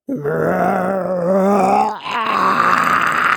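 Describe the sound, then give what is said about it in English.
A voice imitates a rumbling stomach with a long, low groan that holds steady, wavers briefly near the middle, then carries on at a slightly higher pitch. “I can hear your tummy rumbling.”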